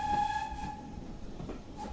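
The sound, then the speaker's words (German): A steam locomotive on a heritage railway at a historic station near the Corfe Castle ruin gives a short, steady whistle at the start, then a continuous low rumble carries on to the end. “In direkter Nachbarschaft zur Corfe Castle Ruine liegt ein historischer Bahnhof. Hier machen nur die Dampflokomotiven der Swanage Railway Halt.”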